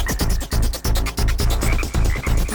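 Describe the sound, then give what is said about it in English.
A frog croaking in a quick, rhythmic series of loud, buzzy croaks with short gaps between them and no voices. “A frog can sit on his own lily pad and chill. Just ribbit.”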